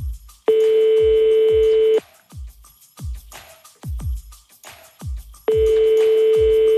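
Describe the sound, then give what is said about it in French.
A telephone ringback tone plays as a call is placed: two long, steady rings several seconds apart, the second cut off at the end, over a steady rhythmic thumping beat. “Ce matin, on appelle Chantal de Mulhouse.”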